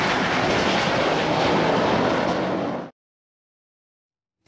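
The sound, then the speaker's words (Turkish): Loud, steady jet roar of an F-16 fighter flying an aerobatic display over the city of Kyrenia in Northern Cyprus, a broad, dense rush of engine noise that cuts off abruptly. “Girne kenti semalarında F-16 savaş uçağıyla akrobasi gösterisi sergileyen Solo Türk”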